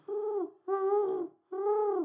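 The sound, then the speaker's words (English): Pigeon cooing: three drawn-out, tonal calls, each about half a second long with a slight downward bend at the end, separated by short pauses. Clear and fairly loud, with no talk. “Pigeon. Oh, it's a pigeon.”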